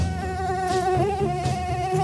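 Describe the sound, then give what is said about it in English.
A mosquito buzzes in a thin, steady, high whine with a slightly wavering pitch. The buzz continues alone throughout the short clip. “Mosquitoes have been around for 75 million years, and they've changed very little.”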